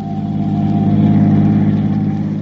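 A car engine hums steadily while driving: a low, even drone that holds the same pitch throughout, with no other sounds.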